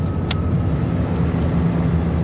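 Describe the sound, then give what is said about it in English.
An aeroplane coming in to land at Croydon, heard as a dense, steady low engine drone with no distinct events and a brief faint hiss early on. “you must return to your seats. The plane is about to land.”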